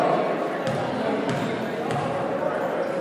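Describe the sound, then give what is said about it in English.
A basketball is dribbled three times before a free throw at a high school game between the Clinton Golden Bears and Carolina Christian, each bounce a dull thump under the commentator's talk and the hum of the gym crowd. “Dribbles the ball, he sets.”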